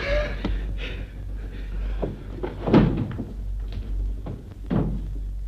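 A door being opened in a staged drama scene after a knock: a few dull thumps and wooden clunks of varying loudness, with soft handling noise between them.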